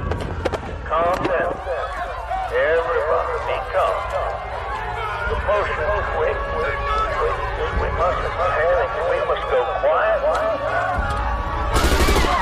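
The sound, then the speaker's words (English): Bursts of gunfire as fleeing people and a group of parishioners are shot down in a massacre: sharp cracks and rapid volleys over a steady background, with voices crying out throughout. “Two people running away are gunned down, then a nearby group of three parishioners are shot”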